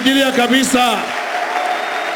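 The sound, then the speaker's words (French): A church audience applauds and cheers loudly, dense steady clapping and crowd noise continuing throughout, with a voice calling out over the start. “Nous allons l'acclamer très fort.”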